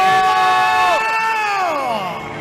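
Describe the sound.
Crowd cheering and whooping to welcome the audience of the white colour side at a staged event, many high voices shouting together loudly and steadily throughout.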